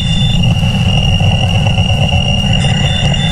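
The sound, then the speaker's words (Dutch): A recorded fragment of the Wow Signal, a real radio signal, heard as a loud, continuous noisy drone with a steady high whine running through it and no breaks. “Want dat kan je winnen, zomaar even als je de Wow Signal hoort. Dat is een echt geluidsfragment en dat klinkt zo.”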